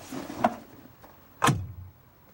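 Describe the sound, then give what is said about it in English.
A car door makes two distinct clunks about a second apart. The second is louder, with a short low rumble trailing after it, and the rest is quiet with no voices. “opens the door and steps out.”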